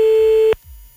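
A telephone busy signal after calling someone back on a radio show: one steady, bright tone cut off after about half a second, followed by faint low noise.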